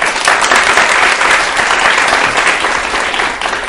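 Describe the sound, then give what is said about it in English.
Audience applause welcoming a poet onto the stage at a town hall event: dense, steady clapping that holds at an even level throughout and eases off slightly at the very end. “please let's join our hands together to welcome our guest on the Town Hall today, Vikram Seth.”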